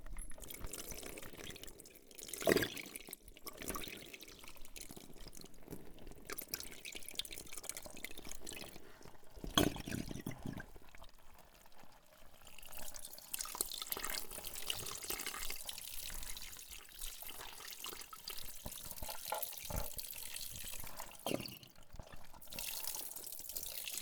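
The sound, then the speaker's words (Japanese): Water runs from a tap while hair is being rinsed, an uneven splashing and trickling flow with intermittent louder bursts. The sound stays fairly faint throughout, with no voices. “この通り水が出てくる。”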